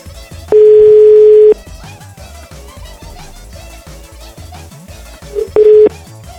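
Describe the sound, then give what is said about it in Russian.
Telephone ringback tone heard while a call is being placed: a loud, steady single-pitch tone that lasts about a second, then returns as a brief second burst that is cut short, over a busy low background. “А вот я не уверен, поэтому я сейчас уже звоню.”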